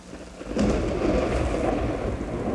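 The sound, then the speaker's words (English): A thunderstorm with heavy rain: a deep roll of thunder swells in after a quieter start and rumbles on beneath a dense, steady hiss of downpour. “And rain. And rain. The deluge.”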